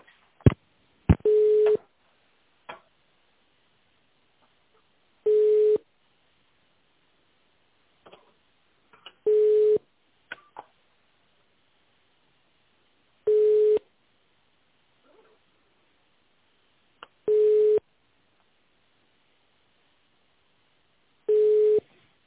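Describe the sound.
Telephone line tones play while a call is transferred: a few clicks at the start, then six steady, mid-pitched beeps at even intervals of about four seconds, with silence between them.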